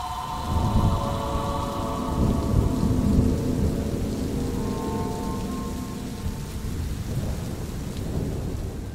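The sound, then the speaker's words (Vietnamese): Thunder rumbles as rain begins to fall: a steady hiss of rain runs throughout over low rolling rumbles. “Tiếng sét vẫn đì đùng, mưa bắt đầu rơi.”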